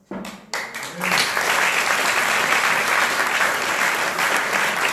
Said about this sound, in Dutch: Geef ze een heel hartelijk applaus.